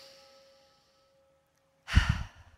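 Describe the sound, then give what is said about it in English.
A single deep breath drawn in during a guided relaxation exercise, a short rushing inhale that bursts out of near silence and lasts about half a second. “Just let everything relax. Take a deep breath in.”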